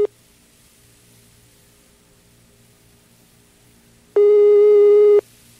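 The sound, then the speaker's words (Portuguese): A telephone call tone sounds while an outgoing call connects: one steady, fairly loud electronic beep lasting about a second, after a long near-silent pause. “Vai me ligar, peraí, vai me ligar. Ai, tá chamando.”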